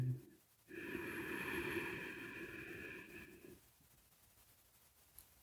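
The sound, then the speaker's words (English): A faint deep inhale during a guided breathing exercise: a soft, airy draw of breath lasting about three seconds that tapers off into quiet. “Take a deep breath in”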